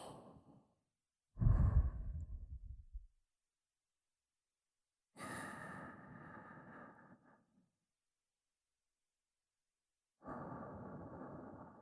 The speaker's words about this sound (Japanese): 吸って吐いて、